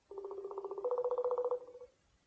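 Ringing tone of an outgoing telephone call: a single buzzing, pulsed ring lasting nearly two seconds, steady in pitch and heard alone, then silence.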